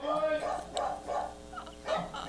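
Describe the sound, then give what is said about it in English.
An excited dog barks in the background: several sharp, fairly faint barks in a quick, uneven series. “Sorry, dog going crazy in the background.”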